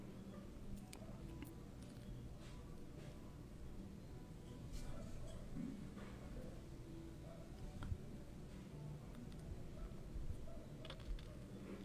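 Typing a comment on a computer keyboard: faint, irregular key clicks patter steadily for about twelve seconds, with occasional slightly sharper taps.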